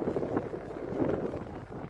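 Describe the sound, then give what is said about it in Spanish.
Strong wind from the north gusts across a microphone in the late afternoon before a sports event, a steady low rumbling roar with uneven swells and no clear talk. “Fuerte viento, realmente lo que se siente a esta hora de la tarde. Del sector norte”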